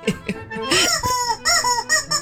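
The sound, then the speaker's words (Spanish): A novelty World Cup horn honks in a series of squawky, bird-like blasts, like a chick or goose calling. The bursts are loud, some clipped and some drawn out, with wavering pitch. “Parece un animalito, man, una corneta. Es la corneta del Mundial.”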